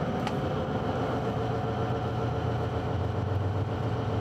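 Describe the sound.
Engine running while accelerating and shifting up into sixth gear: a dense, steady, fairly loud drone with a low hum underneath that continues without a break, and no talk.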